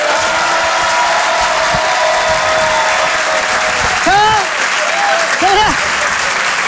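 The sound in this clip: A stand-up comedy audience applauds a comedian as he comes on stage. Loud, steady clapping and cheering run throughout, and a couple of sharp whistles rise above the crowd near the end.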